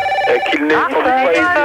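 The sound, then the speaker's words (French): A telephone rings with steady electronic tones that run through the whole clip beneath continuous talk, while people speak loudly over it. “Ça commence à me prendre la tête, celui qui s'amuse avec un téléphone comme ça.”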